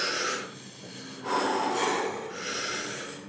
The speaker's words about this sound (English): With Wim Hof, you're looking at big breaths into the belly. So you go...